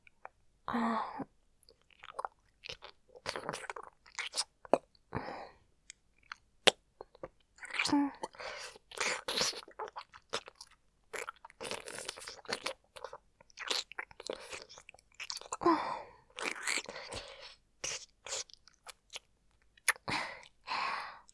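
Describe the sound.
Wet chewing and biting of food fed mouth to mouth between lovers, with many irregular close smacks, crunchy bites and moist clicks arriving in uneven bursts, some louder than others.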